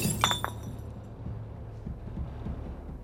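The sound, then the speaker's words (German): A glass beer bottle is smashed in a short, bright shattering burst with sharp clinks at the start, followed by low, rumbling sounds. “Ich zerschlage die Flasche. Das Bier fließt auf den Boden.”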